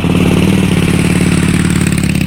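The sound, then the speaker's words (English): A motorcycle engine revs, ridden by a woman on a long group ride near Chicago. It gives a loud, steady, rumbling drone with a rattly edge that holds at a constant level for the whole stretch. “Now that's a woman on a motorcycle.”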